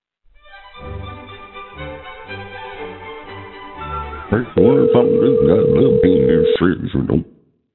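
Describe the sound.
A steady single-pitch telephone line tone holds for about two seconds while a call is transferred to a hotel room, with voices and other sounds around it.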